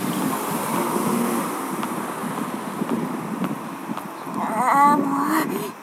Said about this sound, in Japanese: 車の音うるさい。